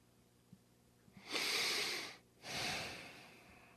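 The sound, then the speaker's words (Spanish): A deep breath: a long, soft, airy inhale, a short pause, then a slower exhale, preceded by a couple of faint clicks. “Respiro profundo.”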